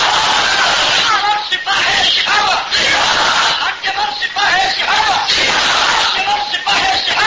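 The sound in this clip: A large crowd at a religious gathering answers a takbir call by chanting 'Allahu Akbar' in loud unison. The shouted chant surges again and again and fills the whole stretch.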